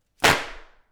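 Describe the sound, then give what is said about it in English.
A 16-inch Tai Chi fan with steel ribs snaps open in one loud, sharp, whip-like crack that fades within about half a second. “And when it opens, it makes like a roar. Like, listen, this is the noise of the Tai Chi fan.”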